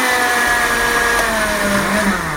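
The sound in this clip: A kitchen blender churns a thick cream without added water, giving a steady, loud motor whine over a low droning hum. It runs continuously with slight shifts in pitch as it labours.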